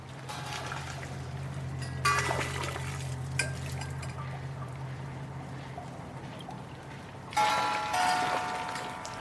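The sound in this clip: Cymbals struck by a counterbalanced sculpture arm over a pond surrounded by trees in a garden: two bright metallic crashes with long shimmering decays, and a fainter tap between them, over a steady low hum.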